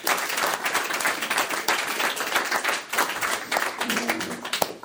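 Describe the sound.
Audience applause welcoming a speaker at an Alcoholics Anonymous meeting: dense, steady clapping from many hands, loud and sustained throughout with no voices over it.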